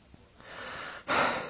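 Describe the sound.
Panting while climbing a mountain path: a breathy, unvoiced inhale followed by a louder, harsher exhale.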